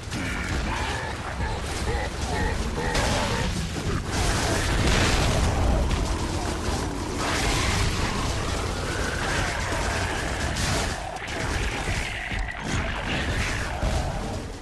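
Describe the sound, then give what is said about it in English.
Video game combat sounds involving aliens, grinding and destruction form a dense, unbroken wash of booms, bursts, crashes and mechanical clatter. The sound stays loud throughout with no pauses. “We are familiar with the sound of many games they involve aliens and grinding things, and, well, you gotta destroy.”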